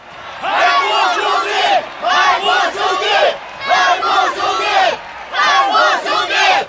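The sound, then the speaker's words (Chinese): A large crowd erupts in cheering and battle cries, a roaring mass of shouting voices that surges in several loud waves separated by brief dips, each swell as strong as the last. “正在这时，更大的欢呼声骤然响起，声浪一阵盖过一阵。”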